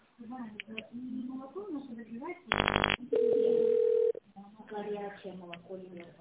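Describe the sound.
A telephone line tone while waiting on hold after an automated phone menu: a short buzzy burst, then a steady single-pitch tone of about a second, between stretches of phone-filtered speech.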